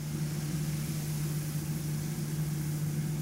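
Steady mechanical hum of a large barrel-shaped coffee roaster drum slowly turning espresso-blend beans with a stirring rod, a continuous low drone with no distinct beats.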